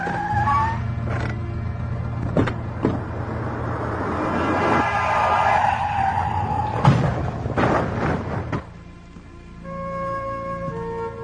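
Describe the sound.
A car skids as a woman throws herself out of it: a loud, sustained rush of tire and engine noise broken by sharp bursts, dropping off abruptly near the end and leaving a quiet steady tone.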